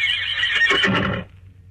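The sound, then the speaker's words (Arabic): A horse gives a single loud, high whinny that lasts about a second, shaking and trembling before it cuts off abruptly into quiet. “الله، ده صوت حصان، ولا انا بتهيالي؟ لكن ايه اللي هيجيب الحصان هنا؟ الله، ده حصان بجد.”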